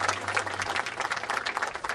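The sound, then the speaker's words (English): Audience applause at a public gathering in Los Angeles: dense, continuous clapping from many hands, steady and moderately loud, with no pauses for the full two seconds. “Give yourselves a big round of applause for all of your hard work.”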